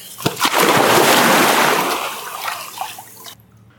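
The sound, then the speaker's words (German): Water splashes loudly in a swimming pool in Bali: a heavy burst of churning spray that slowly subsides over a few seconds into softer trickling, then falls quiet. “Ich stelle nur das Mikrofon neben den Pool, damit hier auch nichts nass wird.”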